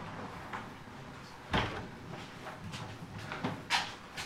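A back door opens into a sitting room, making faint clunks and knocks, one sharp one early and another near the end, over a quiet, hissy background.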